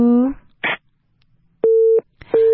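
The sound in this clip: A telephone busy tone sounds on a failed call-in line after a brief voice at the start: two steady beeps at one unchanging pitch, separated by a short gap.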